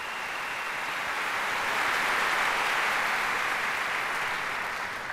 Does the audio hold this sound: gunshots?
no